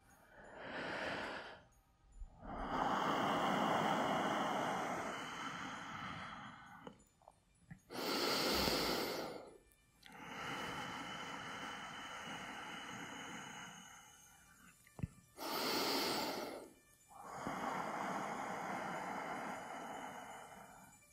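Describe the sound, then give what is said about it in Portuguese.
Slow, deep human breathing with no other sound. About three unhurried cycles alternate short, sharp airy draws with long, loud whooshing releases. “Preste atenção ao meu respirar.”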